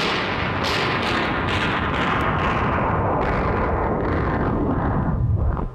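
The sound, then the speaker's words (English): Battle sound effect of massed gunfire and artillery: a loud, continuous roaring barrage packed with many overlapping bursts and booms, holding steady throughout with no voices. “Stop all that dreadful shooting, old man. All right, wait a minute. Let me kill the sound effect here.”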